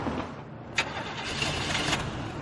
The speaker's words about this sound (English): Start the engine.